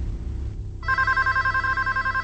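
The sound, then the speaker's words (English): A telephone rings in an apartment: a brief low hum, then an abrupt, continuous warbling electronic trill that holds steady and loud to the end. “The phone rings at Gary's apartment.”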